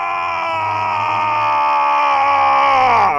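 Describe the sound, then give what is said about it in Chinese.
A man screams in agony as he is tortured and his body is twisted out of shape. The scream is loud and unbroken, held at a strained pitch and bending downward as it ends. “然而，佩罗萨恩的尖叫声越来越响，令听者闻之战栗。”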